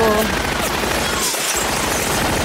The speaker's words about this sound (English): Tommy gun.